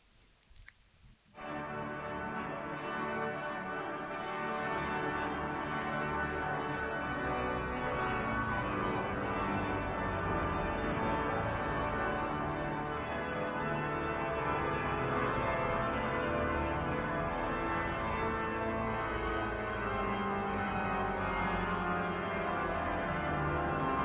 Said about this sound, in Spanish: Un órgano, 3.500 tubos, 56 registros, 34 pedales, que suena así.